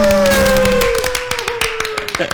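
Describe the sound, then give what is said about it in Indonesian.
Hands clapping from people in a studio: a quick, scattered burst of claps starting under a voice and carrying on alone, thinning into sparser claps toward the end. “Tepuk tangan dulu dong.”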